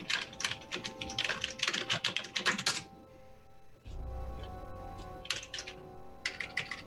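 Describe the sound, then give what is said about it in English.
Typing on a computer keyboard gives quick, faint clusters of keystroke clicks. A pause falls in the middle, then a few more short bursts follow, over a low steady hum. “can you mute yourself while you're typing away?”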